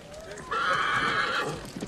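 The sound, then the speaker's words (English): A horse neighs at a racetrack as grooms parade numbered horses: a single loud, shrill whinny lasting about a second over a low background. “Grooms parade the numbered horses.”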